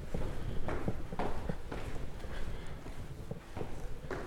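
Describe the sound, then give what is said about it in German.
Footsteps descend a large marble staircase in a hotel, from the third floor to the ground floor, many hard, faint steps falling in a fairly quick, steady rhythm. “So, jetzt der Weg durchs Treppenhaus. Große Marmortreppe im Hotel.”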